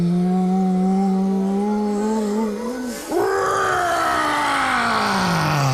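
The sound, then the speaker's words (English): A voice imitates a dragon breathing out fire: a long, steady groaning tone breaks off, then a loud, breathy roaring blast follows and slowly sinks in pitch. “Dragon takes the deepest possible breath. He goes,”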